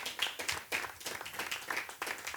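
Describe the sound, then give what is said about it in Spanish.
Rhythmic clapping from an audience during a lively church worship service. Sharp, brisk claps repeat in a steady beat throughout, and no voices stand out over them. “Aplauda al Señor. Fuertes aplausos al Señor,”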